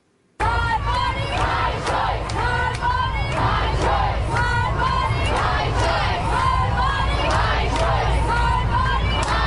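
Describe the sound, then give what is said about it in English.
Crowd of protest marchers in a city street, marching from Greenwich Village to Times Square against a court, with many voices shouting and chanting together in a loud, continuous roar and frequent sharp vocal accents. “thousands marched from Greenwich Village to Times Square protesting the court. But the massive outpouring was widely peaceful, mostly almost entirely peaceful. Here's some sounds.”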